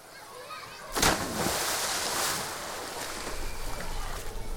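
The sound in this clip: Ambience at the old entrance of the Laugardalslaug swimming pool: a faint, steady wash of water noise with soft splashing swells.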